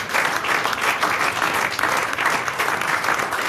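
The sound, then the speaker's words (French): A studio audience at a game show gives a standing ovation, with loud, sustained applause that pulses slightly as many hands clap together, steady from start to finish. “Et c'est une standing ovation. Oui, standing ovation.”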